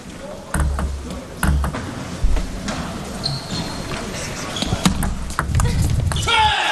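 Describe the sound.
A table tennis ball clicks and bounces as a serve goes to the opponent's backhand short angle in a match, sharp bright ticks at irregular intervals under a commentator's voice.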